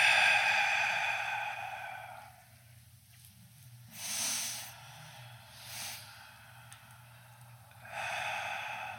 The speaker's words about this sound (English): I want you to do about 12 to 15 of those big breaths in through your nose.